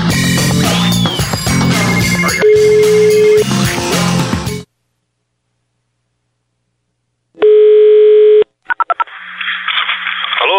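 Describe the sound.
Telephone tones as a call is placed again: music cuts to silence, then a loud steady tone holds for about a second, followed by a few short beeps and a hissing, buzzy line sound.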